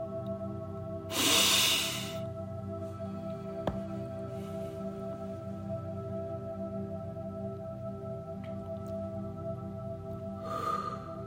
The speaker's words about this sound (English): So let's take a breath to center ourselves and be present in this moment.